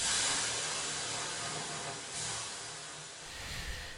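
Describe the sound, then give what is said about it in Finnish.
Water thrown on hot sauna stones sets off a steady, broad hiss of steam that swells slightly midway and thins toward the end, with no voices. “Hei, kato! kato joo, lisää löylyä, joo.”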